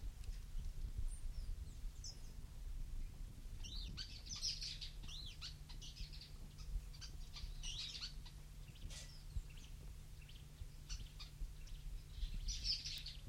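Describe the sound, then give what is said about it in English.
Two birds call with faint, high, short chirps at a few scattered moments over a low, steady background hum. “Two birds calling.”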